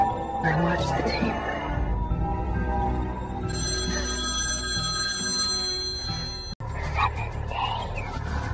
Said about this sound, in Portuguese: Eu estive pensando em algo que a ansiedade se parece e cheguei à conclusão que certamente a ligação que a Samara faz para a menina do chamado.